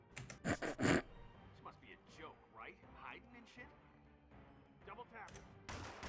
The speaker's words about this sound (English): You shoot me through the wardrobe